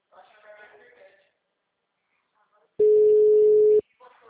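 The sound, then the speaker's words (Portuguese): A telephone line tone sounds while a call is being placed: one steady, loud, even-pitched tone lasting about a second. Talk comes before it, and the talk resumes just as the tone cuts off. “tô ligando pro povo aqui. Só falta eles me atenderem, né? Mas eu tô ligando.”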